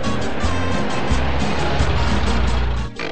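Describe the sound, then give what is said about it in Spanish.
A car engine rumbles steadily with low road noise, then dies down near the end as the vehicle comes to a stop. “Luego de parar el vehículo, Mario ha abierto la ventana para preguntar el destino al cual se dirige la distinguida.”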